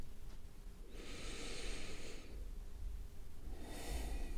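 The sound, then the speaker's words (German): Two slow, deep breaths during a calming breathing exercise, soft airy rushes heard alone and faint; the first lasts over a second, the second comes shorter near the end. “nimm ein paar tiefe Atemzüge mit uns gemeinsam”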